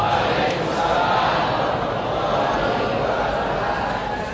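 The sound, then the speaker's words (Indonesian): A large audience at a campus lecture answering the Islamic greeting together, a broad, sustained roar of many voices that stays loud throughout. “Dari bunyi sambutan salamnya nampaknya banyak yang sedang puasa sunat Syaban.”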